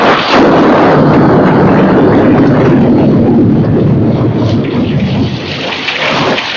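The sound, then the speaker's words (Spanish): Thunder rumbles loudly and continuously through a storm, blended with a steady wash of heavy rain that stays strong throughout and eases slightly near the end. “El trueno retumbaba, el rayo caía, la roca vacilaba sobre su base.”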